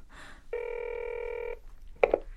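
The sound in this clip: A telephone rings unanswered, one steady electronic burst of about a second, followed by a short sharp knock.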